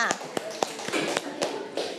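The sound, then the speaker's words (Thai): Children clapping in a classroom for the fifth and final group to present, a steady series of sharp, evenly spaced claps with voices faintly underneath. “ค่ะปรบมือให้กับตัวแทนกลุ่มสุดท้ายกลุ่มที่5ค่ะ”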